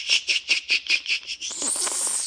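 Cicada song from a single very loud insect: a run of rapid, rhythmic high-pitched buzzing pulses that blur together into a continuous noisy hiss.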